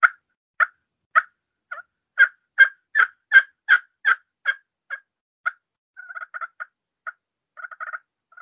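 Yelping from a slate turkey call named Old Lusty, a round slate disc set into the top over internal pedestals: thirteen evenly spaced, sharp yelps, then quicker, softer clucking bursts.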